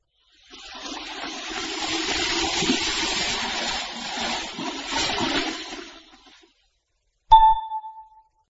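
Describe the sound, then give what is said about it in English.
Splashing, running water as someone washes their face: a steady rushing wash lasting about five seconds, then, after a short pause, a single bright ding rings out. “He washed his face. He washed his face.”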